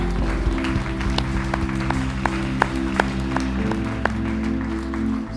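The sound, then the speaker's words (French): A church audience applauding Jesus during a morning worship service, clapping steadily with a few sharper claps standing out above sustained instrumental tones. “Est-ce que vous pouvez acclamer Jésus avec moi ce matin?”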